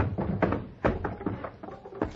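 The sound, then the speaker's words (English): Boxes on a stagecoach are opened, a quiet run of many wooden knocks, clunks and rattles that come in an uneven rhythm. “Driver, climb down. Open up them boxes.”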